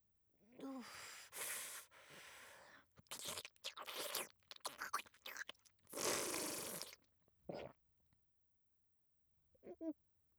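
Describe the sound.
Food being bitten and chewed with crisp crunching: a run of irregular loud bursts with short gaps, then a couple of quieter isolated crunches after a pause near the end.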